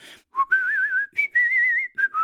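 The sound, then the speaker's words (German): A person whistles a casual tune to themselves while waiting. The notes are clear and bright with a wavering vibrato, and the pitch steps up and down over several short phrases. The whistling is heard alone. “Ich warte hier so lange auf deiner Toni-Box und pfeif so vor mich hin.”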